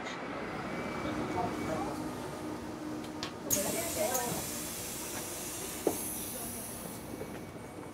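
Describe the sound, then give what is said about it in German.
Arrival at a bus station: a constant rumble of vehicle and station noise, with a sharp pneumatic hiss bursting out midway and a few brief clunks scattered through the steady background. “Ankunft am Busbahnhof.”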